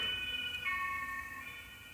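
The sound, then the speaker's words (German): An ambulance siren passes in a street in Duisburg. Its steady, high-pitched wail shifts pitch once partway through and stays fairly faint over a low background hum. “Schon wieder ein Polizeiwagen. Oder ist es ein Krankenwagen? Ich kann die nie unterscheiden.”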